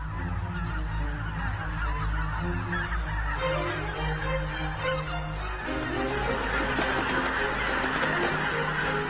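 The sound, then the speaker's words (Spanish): Geese honking as a flock feeds in the Biebrza valley: many overlapping nasal honks form a loud, continuous chorus that runs through the whole clip with no pauses. “Después de unas 2 semanas de intensa alimentación, los gansos abandonan el valle del Biepsa.”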